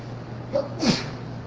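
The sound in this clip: One sneeze, a short sharp burst of breathy noise over a steady low hum, with a brief faint sound just before it.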